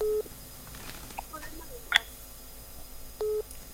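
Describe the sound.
Ringback tone of an unanswered telephone call on a call-in line: two short, steady mid-pitched beeps, one at the very start and one near the end, separated by faint hiss and a brief click.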